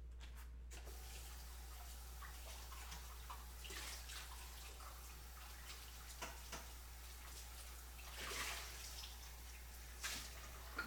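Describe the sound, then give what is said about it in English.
Water runs from a tap as a measuring cup is rinsed while mayonnaise-based batter is prepared for fried Oreos. The flow is faint and steady, with a few brief splashy surges near the end. “I'm just gonna rinse this measuring cup.”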